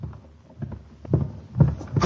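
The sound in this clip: A closet door being opened: low, muffled thumps and knocks of uneven strength, growing slightly louder toward the end.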